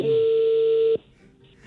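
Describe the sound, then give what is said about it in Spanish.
A telephone tone while a number is being called: one steady mid-pitched tone lasting about a second, followed by a quiet gap and the start of another sound at the end. “Ya está marcando.”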